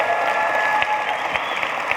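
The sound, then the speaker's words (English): Applause from a church audience: steady, dense clapping runs throughout at an even level, with scattered sharper claps standing out. “maybe don't clap yet.”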